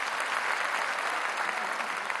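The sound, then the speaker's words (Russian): Steady applause from a concert audience at a performance of Russian folk instruments such as balalaika, gusli and domra. A dense, even patter of clapping continues at a constant level throughout. “Вы дайте мне говорить, потом хлопайте.”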